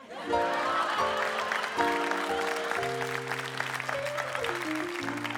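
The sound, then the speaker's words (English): Audience applause welcoming a performer introduced as former Vice President Joe Biden: dense, steady clapping that lasts throughout, mixed with sustained musical notes. “please welcome former Vice President Joe Biden.”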